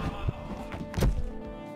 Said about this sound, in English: Did he just fall down the fucking treehouse? Is he dead?